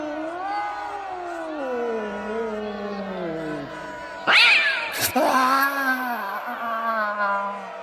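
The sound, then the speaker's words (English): Cats yowl in drawn-out, wavering wails that slide slowly downward, with a couple of sharp, noisy bursts partway through before the caterwauling carries on. “Curse you, feline. I was a perfectly decent sergeant. General, look! More cats are coming out of the water.”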